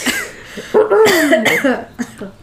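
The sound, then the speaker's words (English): A person clearing the throat: one drawn-out, voiced, rasping sound with a wavering tone, followed by a brief short catch, alone and fairly loud. “The throat clear.”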